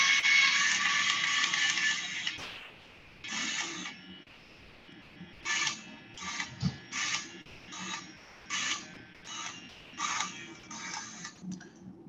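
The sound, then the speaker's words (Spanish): A biopsy needle device fires in Smart Mode on a very hard lesion. It gives one long mechanical whirring burst, then many short buzzing bursts in a fairly steady rhythm, with no voices. “tiene un sistema también Smart Mode, que es cuando detecta automáticamente que la lesión es muy, muy, dura, pues realiza una mayor potencia y en este caso por eso el sonido dura más”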